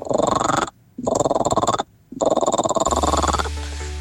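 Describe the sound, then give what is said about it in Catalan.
A human voice imitates a frog croak in three loud runs of rapid, rasping pulses separated by short pauses, followed by a low steady hum. “Granota, eh? Soroll d'una granota.”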